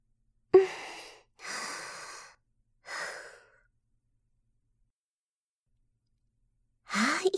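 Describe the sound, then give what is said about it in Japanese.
Slow, deep breathing in and out, made up of three soft breath sounds in fairly steady succession. A long quiet pause follows before a fourth breath. No one speaks. “どうぞ。慌てずゆっくりと息を吸って、吐いて。”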